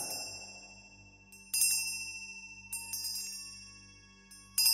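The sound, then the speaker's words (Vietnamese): Hanging bells around a corpse shake and ring in a few bright, shrill metallic strikes, each chiming and slowly fading before the next, over a low steady hum. “Chuông treo quanh xác Kim Liên rung lắc dữ dội, tiếng len keng vang lên chói tai, khiến ai nấy hoảng sợ.”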